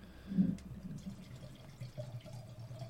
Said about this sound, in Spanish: Suena bien, ¿eh? No sé si el oyente lo percibe, pero está sirviendo las copas